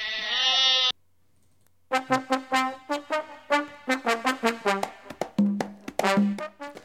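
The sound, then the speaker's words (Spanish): Zaraibi goats bleating while watched through pregnancy and kidding: one long, loud wavering bleat, a short silence, then a rapid run of many short, nasal bleats in a fairly even rhythm. “las cabras Zaraibi ahí controlándoles el parto y la preñez. ¿Qué es una cabra Zaraibi, tío? Es la raza de cabras de Tayikistán.”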